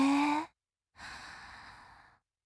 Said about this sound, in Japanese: 吐いて、吸って、吐いて、